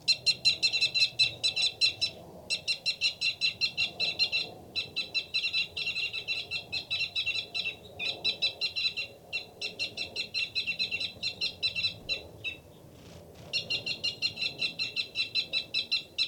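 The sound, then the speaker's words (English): A male bird's rapid fight call: many fast, high chirping notes in long, nearly unbroken runs with a few short pauses, over a low steady background. “Rapid one is the male. A fight call from the male.”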